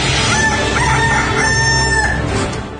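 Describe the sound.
A rooster crows loudly in a sound effect, its harmonic call rising out of a dense, steady farmyard bed of chicken sounds that fades slightly at the end.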